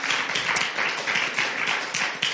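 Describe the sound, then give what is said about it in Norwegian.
Applause at a church gathering for a helper named Roger after a dramatized scene, a brisk, fairly loud burst of many hands clapping with slight swells in intensity. “En applaus selv til Roger.”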